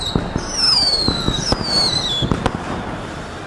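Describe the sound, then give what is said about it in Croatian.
A firecracker explodes in a stadium as fans invade the pitch: a few sharp bangs and a high whistle falling in pitch, over a dense, steady background din. “Pazi, petarda!”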